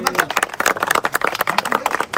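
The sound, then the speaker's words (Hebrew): Rhythmic clapping at a gathering with a rabbi: many quick claps in a steady beat, mixed with voices. “כפיים, כפיים.”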